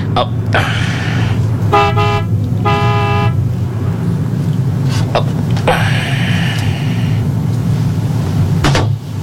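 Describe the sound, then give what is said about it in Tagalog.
Car horn honking twice, a short blast followed by a longer one, over a steady low engine rumble, with a few knocks and clatters before and after. “Businahan ko siya.”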